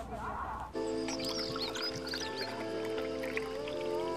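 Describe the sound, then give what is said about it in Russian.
Vodka is poured into two glasses: after a short rush, a steady gurgling, bubbling trickle of liquid runs on, with small drips and splashes over a constant low humming tone. “Два стакана, наливается водка.”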